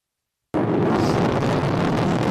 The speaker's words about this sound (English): The landing burn has begun. I think we also heard, we can hear it.